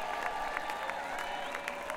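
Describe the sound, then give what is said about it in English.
Audience applause at a blues concert event: a dense, steady patter of many hands clapping, fairly soft and continuous throughout. “Please give them a big round of applause for providing you with all this music over all these years,”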